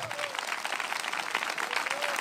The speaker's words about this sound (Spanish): ¿A cuánto le gusta lo que Dios creó? Bueno, denle un aplauso al Señor entonces.